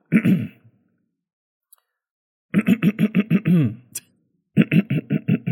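Throat clearing, heard as a few rough voiced bursts and then two rapid series of short, evenly spaced harsh pulses separated by silence.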